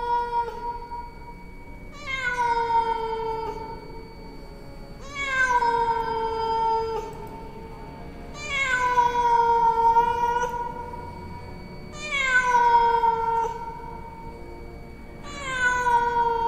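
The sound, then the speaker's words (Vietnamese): Five drawn-out cat meows rise from a forest, spaced a few seconds apart, each starting high and sliding down in pitch, with quiet pauses between them. “Từ khu rừng chỉ vang lên những tiếng mèo kêu, thỉnh thoảng lác đác, sau đó lại chìm vào im lặng đến ngột ngạt và đáng sợ.”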